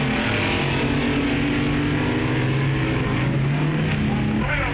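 Dragster cars, including the Dragmaster, launch in a drag race with a loud, continuous engine roar. Several tones layered through it shift slightly in pitch as the cars pull away, and the noise stays dense and unbroken throughout.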